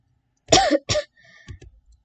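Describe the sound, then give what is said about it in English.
Two quick, harsh coughs in close succession, followed by a few faint clicks, with silence before and after. “wow, that cough did not help at all, did it?”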